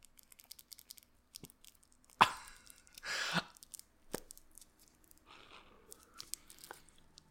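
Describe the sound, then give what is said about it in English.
Fingers rustle on the loose rolling paper of an unlit pre-roll, giving faint scattered ticks and crackles with a couple of louder dry, crinkly bursts. “is that the sound of your pre-roll? Is it just crackling? Is it? It's my fingers on the paper. Oh. Paper's a little loose.”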